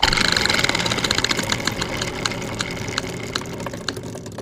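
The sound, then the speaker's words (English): A spinning prize wheel ticks rapidly at first, and its sharp clicks spread out steadily as the wheel slows down. “All right, now we must spin the spinning wheel of chance to see what three criteria these movies will use to battle it out.”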